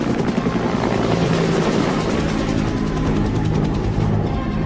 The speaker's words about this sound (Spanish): Las amarras son reconfiguradas y conectadas a un cable de carga del helicóptero Sea Stallion. Ya asegurado, el disco de unos 680 kilogramos es levantado y llevado a los Estados Unidos.